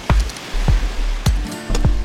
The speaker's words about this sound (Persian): ای جان جانم گوش کن، خوب گوش کن،